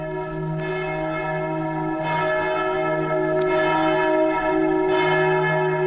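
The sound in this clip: Church bells ring in the old quarter of a town, a few slow, resonant strikes rising over a sustained, humming drone of overlapping tones at moderate loudness.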